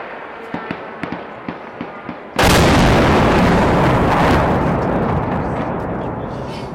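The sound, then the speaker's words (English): A missile strikes a city, Kyiv. A few faint pops and crackles come first, then a sudden, massive blast bursts out and becomes a loud, rumbling roar that fades slowly. “This is the moment just as the first missile struck.”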